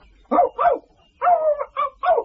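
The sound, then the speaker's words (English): Small, lively Yorkshire Terrier barking in a quick series of sharp, high yaps, one of them a longer, whinier bark, each separated by short gaps and moderately loud. “The dog was a Yorkshire Terrier with a slight lisp, but lively and full of beans.”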